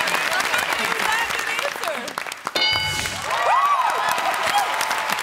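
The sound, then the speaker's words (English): A studio audience of mostly women claps and cheers on a fill-in-the-blank game show, a dense, steady wash of applause with crowd noise that dips briefly midway while a voice talks over it. “But you know, the amazing thing was, after he said murder, just all the women started clapping.”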